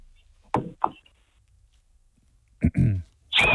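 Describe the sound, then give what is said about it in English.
A gum nut blown like a whistle gives a short, shrill shriek at the very end, after a few brief bursts of voices. “give us your best tune on the gum nut.”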